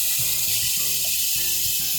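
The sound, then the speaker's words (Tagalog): Sizzling of 3 tablespoons of palapa sautéing in hot oil in a pan. It is a steady, bright hiss that runs unbroken throughout. “Sa isang kawali, magpainit lang ng oil at maglagay ng 3 tablespoon na palapa”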